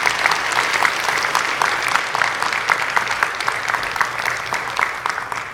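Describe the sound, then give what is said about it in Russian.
Audience applause congratulating a couple at a Sunday church service: sustained, dense clapping at an even, loud level that tapers slightly at the end. “Все, поздравляю вас, похлопаем, пожалуйста, поблагодарим.”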